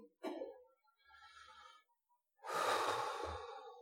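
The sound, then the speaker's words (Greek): An exhalation: a short breathy puff comes first, then a fainter airy stretch, and finally a long, loud, rushing out-breath that fades slowly at the end. “Ένα μικρό ξεφούσκωμα. Μία εκπνοή.”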